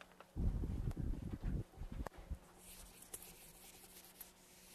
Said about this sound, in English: Okay, can I erase this?